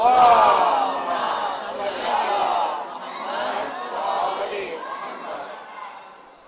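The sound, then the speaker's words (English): A conference audience chants a loud salawat in unison, many voices merging into a dense, sustained chorus that swells and dips over several phrases before trailing off at the end. “Please welcome him with a loud salawat.”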